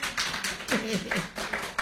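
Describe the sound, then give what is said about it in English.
A church audience claps together in praise during a worship service, giving steady, rhythmic hand claps at moderate loudness, with voices mixed in among the claps. “Come on, put your hands together and give the Lord a hand of praise. Now, that was for me. Now clap for Jesus.”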